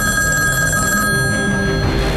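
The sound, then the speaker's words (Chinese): A telephone bell rings late at night, a bright, steady electronic trill that fills the whole moment, with no voices. “这么晚了，谁的电话？”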